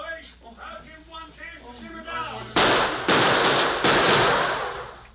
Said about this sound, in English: Hold that gunfire in there!